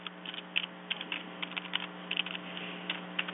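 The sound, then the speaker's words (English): Many quick, light keystrokes on a computer keyboard tap out in an irregular rhythm, faint over a steady low hum, with no talk. “Okay, I just typed it.”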